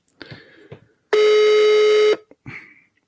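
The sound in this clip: A telephone call rings on the line: a single steady, fairly loud, mid-low ringback tone lasting about a second, with brief quiet voices just before and after it.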